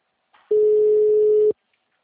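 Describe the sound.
Telephone tone heard while placing an outgoing call: a single steady mid-pitched tone lasting about one second, preceded by a faint brief click.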